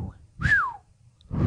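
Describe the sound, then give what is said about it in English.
A person whistles a single short note that glides downward in pitch, clear and fairly loud, set between brief low murmurs before and after. “It's hard to whistle.”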